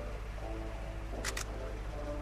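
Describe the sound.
Camera shutter firing a test shot via a release cable: two quick, soft clicks close together, faint against a steady low background hum.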